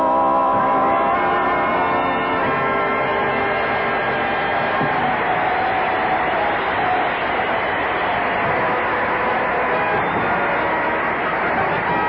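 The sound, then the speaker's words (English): Audience cheering at a show for servicemen at North Island Naval Base. A loud, continuous roar of the crowd holds steady for the whole stretch. “Oh, the cheering.”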